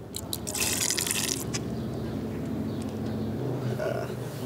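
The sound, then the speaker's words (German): Liquid poured into a drinking funnel, not banana juice: a loud rushing, splashing pour for about a second, then a steadier gurgling flow with a low murmur beneath it. “Du bekommst von mir 10 Euro, dafür darf ich eine Flüssigkeit da oben reinfüllen. Aber es ist kein Bananensaft.”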